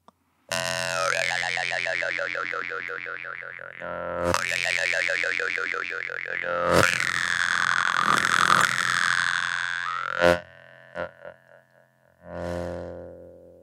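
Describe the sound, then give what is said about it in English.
A voiceless overtone mouth sound is shaped by moving the tongue: a steady drone whose upper overtones wobble rapidly up and down. It comes in three long stretches separated by short breaks and ends with a few brief bursts. “It becomes like overtone. And also if I move my tongue, it does this.”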